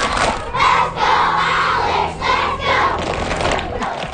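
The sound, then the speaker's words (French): A loud crowd of fans at a hockey rally chants "let's go" in English for a player. The shouted chant comes in rhythmic bursts of many voices, with a brief dip between phrases. “En anglais, mais on comprend qu'un let's go Alex, ça se francise bien aussi à nos oreilles.”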